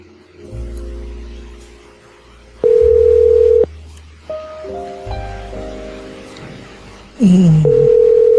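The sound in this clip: Push-button telephone dialing tones sound as a few loud, steady electronic beeps of different pitches, each held for about a second, over a low hum.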